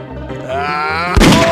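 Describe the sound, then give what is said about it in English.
Single gunshot in the video game Grizzly Gulch, a sharp, loud booming crack near the end, preceded by a drawn-out tonal sound. “He shot me. He got me.”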